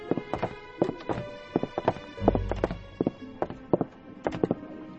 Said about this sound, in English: Pa, I hear something. On the balcony, walking real slow.